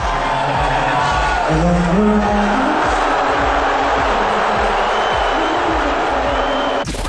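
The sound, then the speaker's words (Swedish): A packed Madison Square Garden crowd boos Donald Trump during the national anthem before a basketball final, a loud, unbroken roar of massed voices that holds steady for several seconds and cuts off abruptly near the end. “USAs president Trump buades ut rejält inför nattens basketfinal i Madison Square Garden där han var på plats.”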